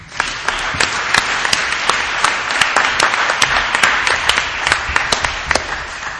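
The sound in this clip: Applause from the audience greets the moderator of a televised candidates' debate on health care. Many sharp individual claps rise out of a dense, steady wash of clapping that lasts about six seconds.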